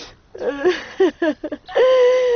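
Tearful crying from a son as his mother comforts him: a few short, wheezy sobbing bursts, then a long, sustained high wail that holds loud to the end.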